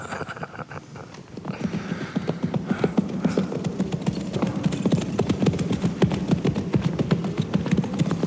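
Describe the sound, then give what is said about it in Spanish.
Horses' hooves clip-clop in a fast, steady rhythm of many beats as three riders head toward a village, loud and continuous throughout. “Tres indeseables, a caballo, se dirigían a un pueblo para en él cometer cuantas fechorías pudieran.”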